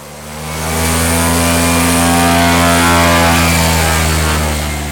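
Engine drone of a small airplane taking off: a steady buzzing tone with strong, even harmonics. It swells up over the first second, holds level, then eases slightly at the end.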